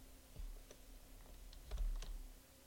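Several soft, separate key presses on a computer keyboard, quiet clicks spaced irregularly with short pauses between them and no talking.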